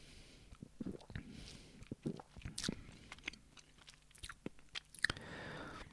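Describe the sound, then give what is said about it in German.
Someone takes sips of Coca-Cola Mystery Creations soda, making close, quiet mouth sounds: many small wet gulps, smacks and swallows in an uneven series. “wie schmeckt uns denn nun diese Coca-Cola Mystery Creations. Ich nehme nochmal einen Schluck.”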